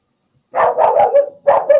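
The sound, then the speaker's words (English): A dog barks in a quick run of sharp, yappy barks with short gaps, loud and alone, with no talk over it. “Doggy says so. Got a vote from the four-legged camp.”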